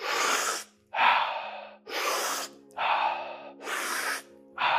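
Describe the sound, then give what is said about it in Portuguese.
Deep breaths in and out, paced in a guided breathing exercise. Airy breaths alternate in a steady rhythm with brief pauses, over a soft, low sustained tone. “Inspira, expira. Inspira, deixa ir. Inspira, deixa ir. Inspira, expira.”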